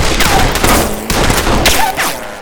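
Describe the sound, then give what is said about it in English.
Gunfire as rounds are fired into a cave: several loud, sharp blasts in quick succession, roughly half a second apart, each trailing a short, rough rumble. “why don't we just throw a few rounds in there, just to be sure?”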